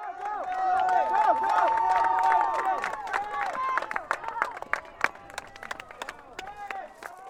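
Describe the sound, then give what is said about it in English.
Supporters cheer as runners round Kelty Field and cross the finish line at a cross-country meet in Unalaska. Loud, overlapping shouting voices come first, then scattered clapping mixes in. “At their final meet on Saturday, Unalaska's cross-country team and their supporters cheered enthusiastically as their teammates, classmates, siblings, and friends rounded Kelty Field and crossed the finish line.”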